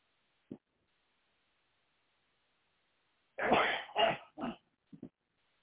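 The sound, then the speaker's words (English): Someone sneezes in a quick cluster of three loud bursts, followed by a fainter small sound. Before them is a stretch of near silence broken by one brief click. “I don't know what's going around today, but it's causing me to sneeze.”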